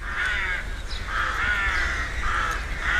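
Rooks call from a colony nesting in a row of oak trees in a residential neighbourhood of Assen. Harsh, raspy caws come in repeated bursts that overlap into a continuous chorus, fairly loud and steady throughout.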